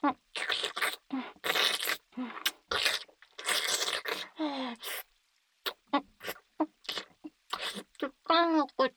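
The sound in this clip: Crunchy chewing comes in crisp, repeated bursts of bites and grinding. Voices talk between and over the crunches.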